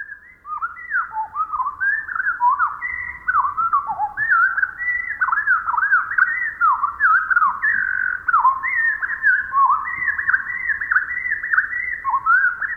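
A Pacific wren sings a long, rapid, high-pitched song of tumbling trills and twitters, run together almost without pause and loud against faint low background noise.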